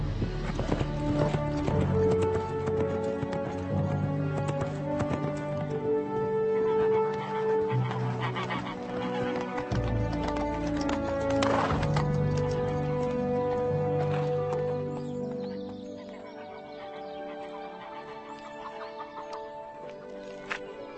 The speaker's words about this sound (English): how about that horse outside?